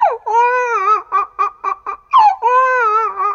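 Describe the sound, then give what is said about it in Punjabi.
A baby crying in a Punjabi comedy skit: long, high wailing cries broken in the middle by a run of short, choppy sobs, loud and alone. “ਮੀਤੇ ਬੇਟੇ ਵੀਰ ਨੂੰ ਖਿਡਾ, ਵੀਰ ਬਹੁਤ ਰੋ ਰਿਹਾ।”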